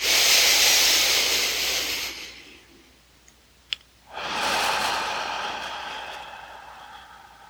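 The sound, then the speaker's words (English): Deep breathing during a guided lower-belly breathing exercise: two long, airy breaths separated by a quiet pause, each a loud, steady rush of air with no talking. “We're going to breathe down into the earth. And we're going to pull up from the earth into our lower belly.”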